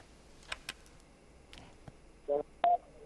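Telephone keypad tones as a radio call-in host dials a listener: a few faint clicks, then two short, loud, steady two-tone beeps in quick succession near the end.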